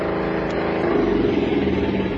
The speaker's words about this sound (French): Il faut bien que je démarre. Qu'est-ce que ça veut dire? Allez, là. Allez, allez, allez, vieux camion.